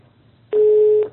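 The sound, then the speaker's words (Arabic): A single clean electronic beep marks a dropped phone call, a steady mid-pitched tone of about half a second that starts abruptly after a quiet hiss and then cuts off. “انقطع الاتصال يا شيخ صايم، حسب الله، الله المستعان. طيب، هذه أحيانا تكون يعني رداءة في الاتصالات يعني لأسباب فنية”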